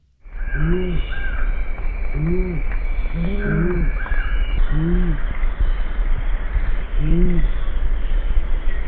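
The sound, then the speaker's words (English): Deep, low hooting calls of an owl, repeated several times at irregular intervals over a steady hissing background with no voices. “they don't have the kind of sense of hearing that some of the other owls do, but they have this very low call, which I think probably travels well in the environments that they live in.”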